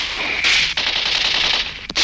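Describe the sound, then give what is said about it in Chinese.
Dense gunfire as partisan fighters and German soldiers shoot at each other in the dark: a loud, rapid volley that runs almost unbroken for two seconds, with brief dips in the firing. “黑暗中，双方互相射击。”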